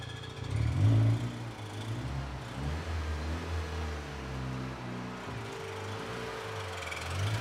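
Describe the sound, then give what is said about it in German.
A repaired car engine, from a car once worth only scrap, running cleanly after starting: a steady low mechanical hum with a brief swell near the start, then an even idle. “So, das Gröbste haben wir geschafft. Der Motor läuft.”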